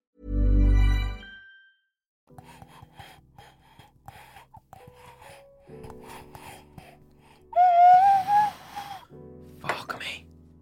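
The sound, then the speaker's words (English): An ocarina played by inhaling gives thin, breathy, wavering tones with gasping air noise, then a clearer whistling note near the end, and some speech-like sound in between. “That was the inhaled ocarina pause.”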